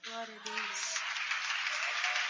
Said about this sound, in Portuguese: e as palmas são para Jesus